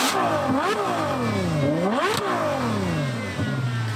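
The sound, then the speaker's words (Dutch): A Ferrari 812 Superfast engine revs hard while driving: a loud, continuous engine note that climbs in pitch and then drops abruptly several times as it pulls through the gears. “Wouter, die ging met gevaar voor eigen leven op pad met de Ferrari 812 Superfast”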